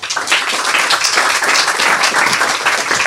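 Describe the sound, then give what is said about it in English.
An audience applauds to welcome an author: dense, continuous clapping that stays loud and even throughout, with no voices above it. “Let's hear some welcome sounds for our next author, Beatrice Altieri.”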